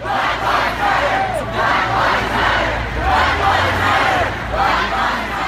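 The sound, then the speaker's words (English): Crowd at an anti-Trump protest in New York's Union Square on the evening after the election, chanting loudly in steady, rhythmic surges that repeat without a break. “Here's the sound of a anti-Trump protest in New York's Union Square on the evening after the election.”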